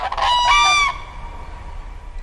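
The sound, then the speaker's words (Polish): Common cranes calling: a burst of loud, overlapping trumpeting calls lasting under a second, then only faint background noise. “Hejnałowymi ptakami są żurawie, jak słyszeliśmy przed chwilą.”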